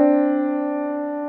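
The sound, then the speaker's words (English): Two sustained musical notes a major second apart, sounded together as a harmonic interval, ringing steadily and fading slightly over about a second with nothing else heard. “A major second is like the first two notes in a major scale. When they're played harmonically together, they sound like this.”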